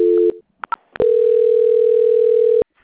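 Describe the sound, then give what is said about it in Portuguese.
A telephone line tone plays during a call transfer on a bank call: a short steady tone, then a few brief clicks, then a long, loud, unbroken tone lasting over a second before it cuts off abruptly. “Obrigada, só aguardar em linha. Transferência.”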